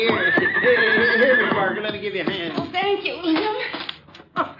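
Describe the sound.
A horse whinnies loudly in a rising and falling neigh as it comes to a stop after being ridden, followed by a few sharp hoof clops and shuffling.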